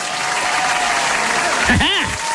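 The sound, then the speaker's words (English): A round-of-applause sound effect: dense, steady clapping from a crowd that runs evenly throughout, with a short vocal sound rising over it near the end. “Hang on, going to give Piper the round of applause. If I was more professional, I'd have it ready. Where is it? Here you go for my own kid.”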